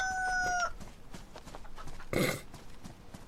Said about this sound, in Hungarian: Na hát, életre kelt a csirke. Azaz, hogy a kakas.